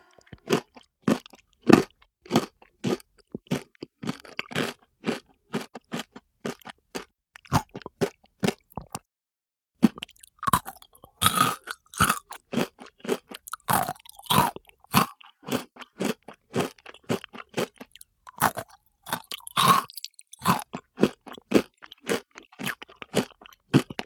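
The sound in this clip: Crunchy spoon-shaped sugar candy being bitten and chewed, with many sharp, brittle crunches in irregular bursts and a brief pause partway through.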